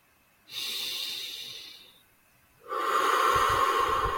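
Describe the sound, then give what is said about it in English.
A powerful deep breath during a guided meditation: a long airy inhale, a brief pause, then a stronger, fuller exhale rushing out loudly, with no talking. “Feel that powerful breath called forth.”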